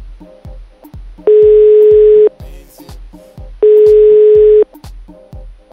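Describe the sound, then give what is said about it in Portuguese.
A telephone tone while a call is placed: two long, steady tones of about a second each, separated by a pause, over a rhythmic music beat. “a nossa missão é ligar para Helena e vamos colocá-la a par da situação”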